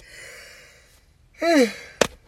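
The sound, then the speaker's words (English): A person yawns, giving a short voiced groan that slides downward in pitch, followed by a sharp click. “I was really trying not to yawn this whole episode, and god damn it, it finally got me.”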